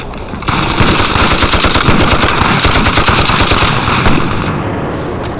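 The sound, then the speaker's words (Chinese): Heavy gunfire from many guns: dense, rapid machine-gun bursts and single shots overlap in a loud, continuous barrage that eases slightly near the end. “所有人给我开枪，把声音压过去。”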